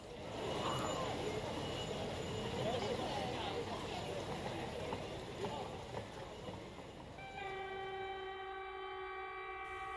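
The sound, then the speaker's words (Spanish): A train in Poland rumbles past as a broad, steady roar, then sounds a sustained horn chord that holds to the end. “Tren en Deza Dart, Polonia.”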